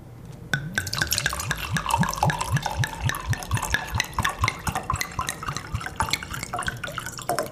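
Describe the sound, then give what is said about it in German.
Pinot Gris wine glugs out of a bottle in a rapid, even run of liquid pulses. The pour continues steadily for the whole clip with no voices. “habe ich ein paar Flaschen Grauburgunder geordert und werde jetzt zur Feier des Tages eine Flasche öffnen.”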